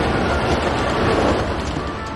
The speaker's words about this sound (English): Later, a train rides along a track through a wooded area.